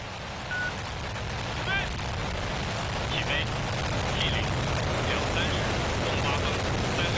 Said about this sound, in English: The Shenzhou 23 spacecraft has successfully blasted off, opening yet another chapter in the country's space program.